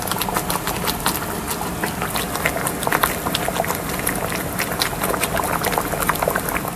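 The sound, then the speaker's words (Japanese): Food simmers in a pot, making a dense stream of small bubbling pops and crackles over a steady low rumble. The sound continues throughout with no voices. “ぐずぐずぐずぐず言ってますけれども、これをちょっとねご飯によそってかけて食べてみたいと思います。”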